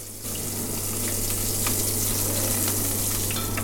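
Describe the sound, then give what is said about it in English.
Falafel frying in boiling oil gives a loud, steady, hissing sizzle that starts abruptly and then holds evenly as a dense crackle throughout, with no voices. “You can hear the sizzling in the boiling uh, oil”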